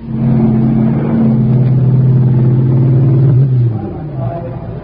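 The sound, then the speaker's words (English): Roar of high-powered race cars, ERAs among them, at a mass start at the Polo Grounds: a loud, steady engine drone with strong low harmonics that drops in pitch near the end. “They're off, and it was a fine mass start that you just heard.”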